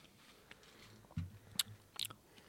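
Crisp, dry pasta being bitten and chewed, giving a few faint, sharp crunches and crackles spread over a quiet background.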